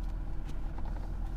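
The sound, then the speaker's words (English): Low, steady engine rumble of a truck with a trailer backing in at a gas station, fairly faint and unbroken. “I'm backing in here at the gas station. These gas stations, they don't make them big enough for trucks and trailers.”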